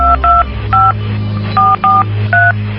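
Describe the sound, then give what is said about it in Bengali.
A phone number is dialed on a keypad as a series of short dual-tone beeps in an uneven rhythm, with brief gaps between them, over a low steady hum. “তুই এক কাজ কর, এখনই একবার স্বচ্ছ ভাইকে phone দে। দাঁড়া, এখনই দিচ্ছি।”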